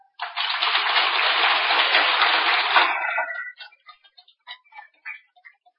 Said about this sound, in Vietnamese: Nghĩa là quý vị đã thấy rõ được giá trị phước báo của việc nhận Đức Phật làm thầy, cho nên đã vỗ tay rất giòn.